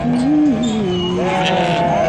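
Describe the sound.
Sheep bleating from a flock of western Tibetan white sheep on grassland pasture: a steady, wavering, fairly loud bleat runs through the whole two seconds, its pitch rising and dipping.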